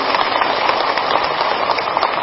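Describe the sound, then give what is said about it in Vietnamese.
A crowd in a hall at a Buddhist ceremony gives a long, steady round of applause, a dense, even patter of many hands that sounds much like heavy rain. “Xin toàn thể hội trường cho một tràng pháo tay thật nồng nhiệt.”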